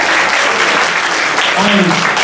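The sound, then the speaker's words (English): Audience applause at an awards ceremony: dense, steady clapping from a crowd that holds at an even, loud level for about two seconds, with a brief vocal cheer rising through it near the end. “huge round of applause for everyone who completed.”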